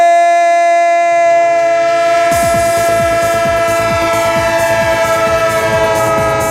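Train rolling past with its horn sounding, used as a sound effect; a steady, loud chord of horn tones holds throughout while rhythmic clickety-clack of the wheels joins after a couple of seconds and repeats evenly to the end.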